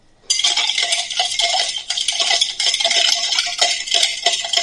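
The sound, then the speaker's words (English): Chilled spirits, including coconut Malibu, being stirred together in a glass, heard as a quick, steady glassy rattle and clinking that starts after a brief quiet moment and carries on to the end. “Now I'm going to stir”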